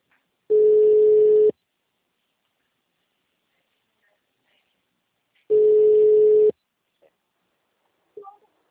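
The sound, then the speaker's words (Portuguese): Telephone busy tone after a dropped call: two steady one-second beeps about five seconds apart in near silence, followed by a few faint short noises. “Estávamos numa ligação? Caiu a ligação? Não estava conseguindo. Caiu.”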